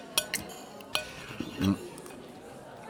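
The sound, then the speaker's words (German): Plates of cold roast meat are set down and wine is served with a few bright clinks of dishes, cutlery and glass, while a voice talks over the faint clatter. “brachte 3 Teller mit kaltem Braten und schenkte Wein ein”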